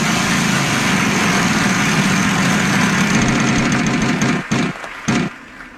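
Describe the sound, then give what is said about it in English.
A junky game wheel spins with a steady, loud whirring rattle that runs unbroken, then cuts out near the end after a couple of brief bursts. “Let's spin our really junky wheel. Here we go.”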